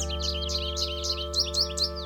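Birds twittering in quick, high, repeated chirps, a steady stream of short bright notes over a constant low tonal drone.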